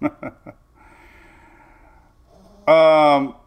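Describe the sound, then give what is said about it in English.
Snorting, snoring breaths from a dog: three short snorts open, then a long faint drawn-out nasal tone, ending with a louder, harmonic-rich wheezing breath. “The dog snoring. I know. I hate it. It's actually driving me in a little crazy right now.”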